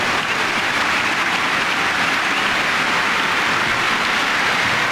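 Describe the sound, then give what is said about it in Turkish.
A stadium crowd applauds during an international football match between Norway and Portugal, a loud, dense, unbroken roar of clapping that stays steady throughout. “Alkış aldı.”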